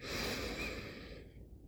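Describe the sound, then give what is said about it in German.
One deep, slow breath drawn in through the nose during a guided meditation, a soft breathy hiss that starts strong and gradually fades away, heard alone. “Und jetzt atme einmal tief und bewusst ein und aus. Durch die Nase ein”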